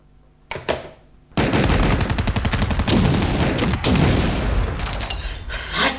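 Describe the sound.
Gunfire at a building: a couple of sharp cracks, then a loud, sustained burst of rapid automatic fire that carries on densely to the end.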